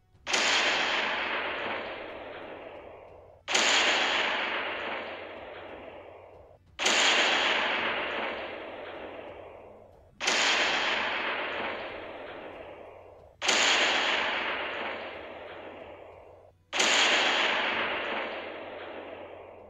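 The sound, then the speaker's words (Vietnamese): Violent explosions and cannon fire from a desert battle: six heavy blasts, evenly spaced about three seconds apart, each a sharp loud crack followed by a long rumbling decay over a low steady hum. “Những tiếng nổ dữ dội vang lên”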